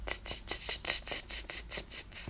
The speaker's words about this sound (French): C'est le concert des cigales du soir.